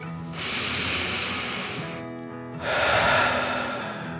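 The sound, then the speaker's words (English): A deep breath drawn in and then let out, performed by a narrator acting out a frustrated character in a children's tale: two long, airy rushes with a short pause between them, the second one louder. “Billy took a deep dragon breath in and out”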